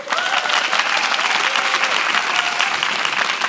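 Audience applause welcomes author Tori onto the stage at a book event, a dense, steady clapping that stays loud and even throughout with no voices over it.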